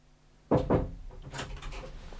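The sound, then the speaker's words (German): Two sharp knocks on a door land in quick succession. Quieter, indistinct sounds follow, and no voices are heard. “Warum klopfst du denn?”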